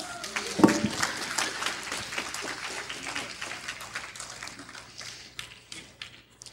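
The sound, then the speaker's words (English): An audience applauds: a dense, steady patter of many hands clapping. It opens with a sharp burst, holds for several seconds, then slowly thins and fades. “Give Anderson a hand.”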